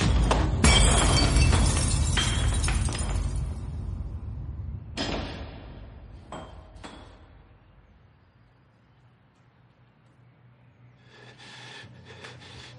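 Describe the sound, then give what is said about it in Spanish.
A ceramic cup smashes against the lower part of a kitchen counter and shatters: a loud, bright crash with scattering shards, then a few sharp clinks of fragments settling before the sound fades to near silence. “La taza se estampa contra la parte baja de la encimera y se hace añicos.”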